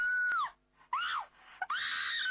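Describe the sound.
A young woman screams in three high, strained bursts while bathing in a bathroom, the first two wavering and breaking off, the last long and sustained at full loudness.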